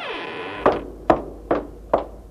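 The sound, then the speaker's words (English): A door opens with a brief, falling creak as someone enters a room, followed by four evenly spaced hard knocks or thuds. “Ah, here she is now. The door opened again.”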